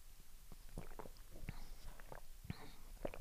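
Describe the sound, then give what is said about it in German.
Sipping coffee at around 11 in the morning, heard as a few soft, brief slurping and swallowing mouth sounds with small clicks, faint and spaced irregularly, with no talking. “Ich trinke zwischendurch immer mal ein bisschen Kaffee, ne?”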